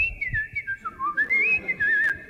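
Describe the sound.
A voice whistles a wavering, trilling tune, imitating a woman whistling idly while rearranging furniture. Short bright phrases dart up and down in pitch, alone with no talk.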